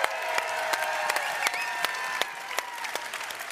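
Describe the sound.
Applause from an audience welcoming two competitors at the Gateway Throwdown, a steady patter of many hands clapping. It stays fairly soft and even throughout, with a few sharper individual claps standing out.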